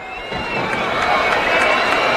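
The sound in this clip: Spectators whistle at the Estadi Olímpic Lluís Companys during a women's football match, shrill sustained whistles over a crowd murmur that grows slightly louder after the first half second.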